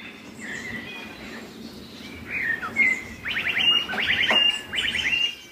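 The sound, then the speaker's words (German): Bird song mimicking the electronic sounds of Bolt e-scooters: scattered high chirps and whistles, then a few rapid, buzzy trilled bursts repeated in quick succession, fairly loud over a low background hum. “Ja, ich glaube, es sind die Bolt-Geräusche von der Marke.”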